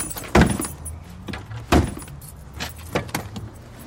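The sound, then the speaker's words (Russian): A man angrily hits a minivan door that will not open: two heavy metallic thuds stand out, followed by a few lighter knocks and rattles over low vehicle noise. “Минивэн не открывается. Парень в ярости бьет по двери.”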